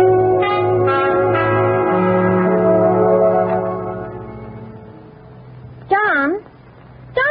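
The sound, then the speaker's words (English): A house doorbell rings on Halloween night with several sustained bell tones that overlap and fade, then a voice speaks briefly near the end. “I'll do the ringing and you do the running. Okay, let's ring Mr. Edwards' bell first.”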